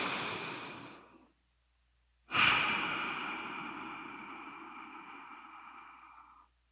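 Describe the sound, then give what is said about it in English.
A deep breath: a soft inhale fades into a short silence, then a long, breathy exhale starts suddenly and slowly tapers off over several seconds. “let's take a deep breath”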